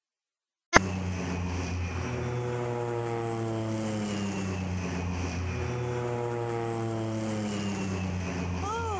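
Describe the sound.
Loud, steady drone of a propeller airplane's engine that starts abruptly after a moment of silence and holds continuously, its harmonic engine note wavering and shifting in pitch as the plane climbs.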